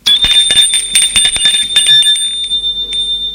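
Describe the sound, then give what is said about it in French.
Doorbell ringing at a home, a bright metallic bell with a rapid run of strikes that leaves a sustained ringing tone, which fades over the last second. “Et sonne chez Gilles.”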